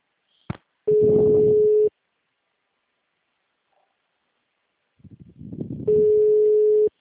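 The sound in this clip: Telephone line tones sound during a phone call: a sharp click, then a steady low tone lasting about a second over line hiss, a stretch of silence, rising line noise, and a second identical tone.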